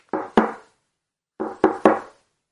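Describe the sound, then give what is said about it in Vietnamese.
Hard knocking on a door: two sharp raps, a pause of about a second, then three more in quick succession, each a loud, dry thud with a short decay, with nothing else audible. “cô cố gắng gõ cửa thật mạnh.”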